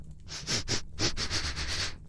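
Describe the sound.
A person sniffs rapidly with the nose: many quick, airy inhales in an uneven, burst-like rhythm, fairly loud and steady throughout, with no talk.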